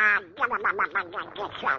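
A duck quacks in a quick, loud run of many short, nasal quacks that stand alone without talk over them.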